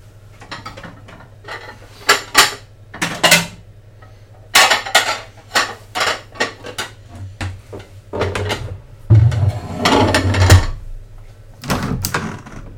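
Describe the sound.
Plates and dishes being taken out while a meal is prepared: many irregular clinks and clatters of crockery mixed with knocks like drawers or cupboards opening. The sounds are loud and uneven, with brief pauses between them.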